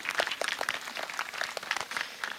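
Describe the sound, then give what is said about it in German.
Audience applause at a live event: a dense, steady patter of many overlapping claps that keeps going through the whole clip without letting up, with no voices over it. “Gerne einen kleinen Applaus. Danke. Auch einen größeren.”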